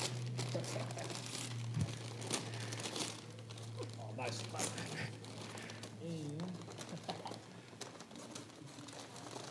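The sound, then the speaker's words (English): Wrapping paper crinkles and tears as a wrapped gift is opened, with scattered crisp rips and rustles running under steady talking. “You got to unwrap it here, okay? This is sort of a dual surprise. You get two gifts in one.”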